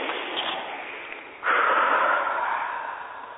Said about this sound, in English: First of all, everybody take a nice deep breath right now.